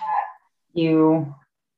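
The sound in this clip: A senile Pomeranian dog vocalizes in two bursts: a short yap, then a longer, tonal, whining bark after a brief pause.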